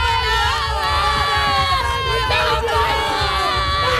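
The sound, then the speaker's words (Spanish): A street crowd in Almería celebrates Spain's World Cup win, loud cheering, whooping and shouting from many voices, with chanting tones running through the steady, unbroken roar. “El de la celebración del Mundial de España por las calles y las plazas de todos los municipios.”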